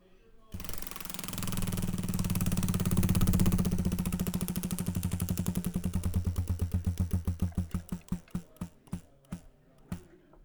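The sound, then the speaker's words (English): A big prize wheel spins, its pointer ratcheting in a fast, continuous clatter that gradually slows into distinct, widening ticks until the wheel comes to rest. “Let's pull one up, spin the big wheel.”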